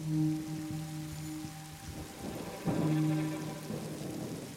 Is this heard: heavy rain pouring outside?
yes

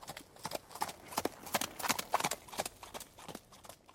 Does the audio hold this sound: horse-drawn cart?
yes

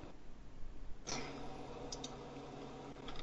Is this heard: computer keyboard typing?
yes

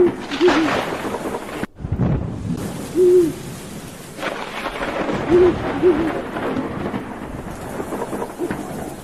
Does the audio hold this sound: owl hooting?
yes

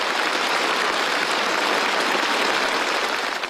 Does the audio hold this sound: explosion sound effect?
no

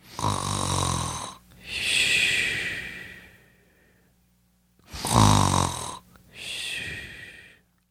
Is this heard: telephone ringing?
no

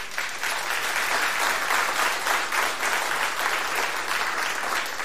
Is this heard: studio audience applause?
yes

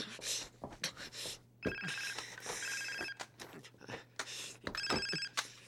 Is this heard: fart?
no

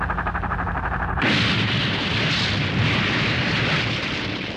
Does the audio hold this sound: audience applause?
no

